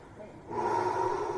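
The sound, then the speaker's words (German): A man breathes deeply in and out. A soft breath swells midway into a louder, sustained airy rush that holds steady to the end. “Andreas klappt den Deckel ganz hoch, dann atmet er tief ein und aus.”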